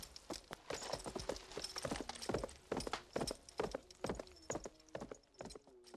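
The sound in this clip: Clip-clop of horse hooves as horses are led along on foot at a walk: many steady, fairly loud hoofbeats in an uneven, overlapping rhythm, with no voices.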